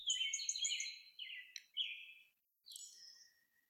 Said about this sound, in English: so thank you for sharing these birds as we talk.